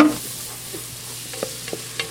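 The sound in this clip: Stirring a braising liquid of onion, garlic, fresh tarragon and Worcestershire sauce in a pot, a faint steady sizzle broken by a few light clicks and scrapes of the spoon.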